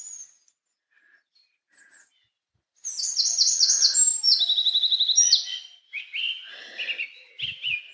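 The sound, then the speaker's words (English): Birds sing in a forest beside a brook. A few faint calls come first, then a dense, loud run of rapid high chirps, trills and whistled phrases, with shorter bursts of tweets toward the end. “I'm surrounded by birds, and you can hear the water from the brook and the little river behind me.”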